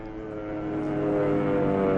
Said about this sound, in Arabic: أربع طيارات للعدو متجهة للشرق. ياه، دي عالية قوي.